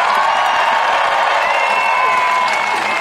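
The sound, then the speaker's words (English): A rally crowd in Trafalgar Square, London, cheers and shouts for pregnant women in the audience, a loud, dense, unbroken roar of voices and whoops. “Let's give these pregnant girls a shout.”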